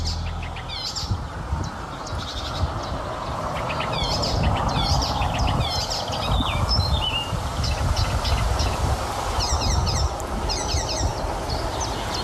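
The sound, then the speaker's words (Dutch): A marsh warbler sings, mimicking a blackbird, a great tit and a blackcap. Its rapid, varied chirps and whistles come in bursts over a steady low rumbling background. “Het geluid van een merel, een koolmees en een zwartkop. Maar eigenlijk horen we hier alleen de spotvogel die het hele stelletje imiteert.”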